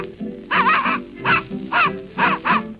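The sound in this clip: A human voice imitates a little dog barking, giving five high, nasal yapping yips in quick succession.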